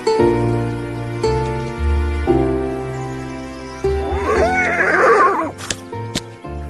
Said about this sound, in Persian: داره میگه دو تا هویج میخواد. ریکاشه اسب خیلی باهوشیه، خیلی هم مهربونه.